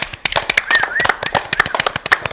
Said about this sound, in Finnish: Annetaan aplodit.